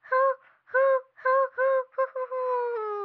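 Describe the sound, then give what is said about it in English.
A voice imitates the call of a Western screech owl: spaced, hollow hooting notes that quicken into a fast run and end in one drawn-out, steady tone. “I'm so excited to show you the Western Screech Owl.”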